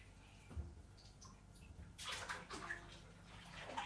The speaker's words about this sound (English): I've got to wet my hands to do it. So they're all clean like that.